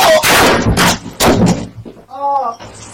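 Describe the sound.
Gunshots ring out in recorded audio of a shooting: a few loud, sharp bangs close together, followed by a short strained, moaning voice.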